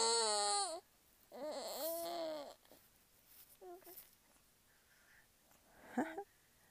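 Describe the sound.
A baby fussing while struggling to get a pacifier the right way into his mouth: a few short, whiny cries and whimpers with wavering pitch, separated by quiet pauses, the last one brief and strained.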